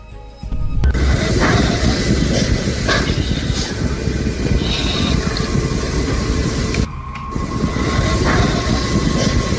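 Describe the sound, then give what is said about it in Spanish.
Subway ambience captured on a phone: a loud, steady train rumble with rattling and clattering throughout, briefly easing near the end before the roar resumes. “Y sí se oye el ambiente del metro.”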